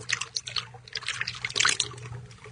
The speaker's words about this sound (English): come to the virgin blood we pour for you. Here!